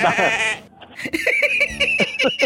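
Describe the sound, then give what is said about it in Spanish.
Sheep bleating, starting with a wavering, quavering bleat, then a few shorter, broken bleats. “Ah, el borrego. El borrego.”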